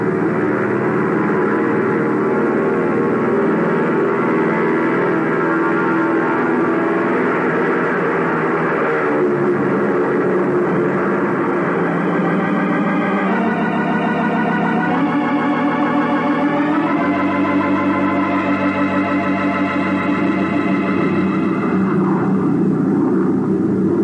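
An airplane taking off from a runway: a loud, steady engine roar that drones on for about 24 seconds, with its engine tones shifting midway.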